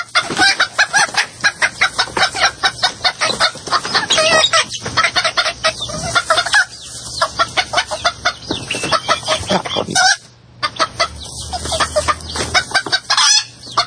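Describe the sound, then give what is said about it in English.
Chickens clucking, a loud, dense stream of rapid, overlapping clucks and squawks that carries on almost without pause throughout, with only brief dips in volume and no people talking. “Well, I'm feeding her to the chickens.”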